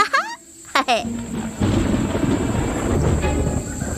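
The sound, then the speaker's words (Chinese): Thunder rumbles as a storm approaches, a deep, broad roar that swells after a couple of short, high chirps and then carries on loudly without a break. “哦，那是什么？哦不，暴风雨来了。”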